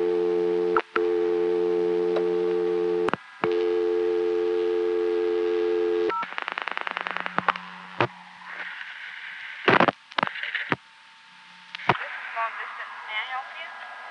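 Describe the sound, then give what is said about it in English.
A 1975 recording of a payphone telephone dial tone after a 20-cent deposit: a steady tone for about six seconds broken by a few clicks, then a rapid train of clicks and irregular, noisy line sounds. “I had to go back to 1975 to get even a recording of that much proof that it really was semi-dial tone first.”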